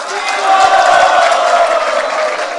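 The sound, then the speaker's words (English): A loud round of applause from an audience at a youth gathering in Pune, thanking guests: dense, steady clapping mixed with crowd voices, swelling early and holding strong to the end. “Let us thank them with a loud round of applause.”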